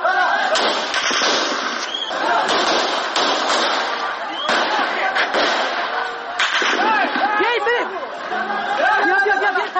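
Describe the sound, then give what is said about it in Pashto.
Gunshots fired into the air at a street protest in Kabul, heard as a few sharp bangs masked by loud, continuous crowd shouting and chanting. “دوی اعتراض په فیسبوک پاڼه ژوندی خپراو چیرې چې د ډز غوږونه هم اورېدل کیږي.”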